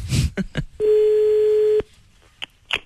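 A telephone call tone sounds while dialing a home line: a few short clicks and blips lead to one loud, steady, mid-pitched tone lasting about a second, followed by more scattered brief blips.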